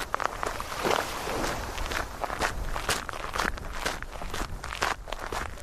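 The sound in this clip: Footsteps walking down to the tiny beach of Penouet, at the end of Morgat: many steady, crunching steps in an even walking rhythm, each a short gritty scuff, heard alone without talk.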